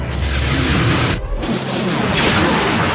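A gun firing in a Star Wars video game: a loud, dense, continuous roaring blast that briefly drops away near the middle, then surges back with a sweeping whoosh.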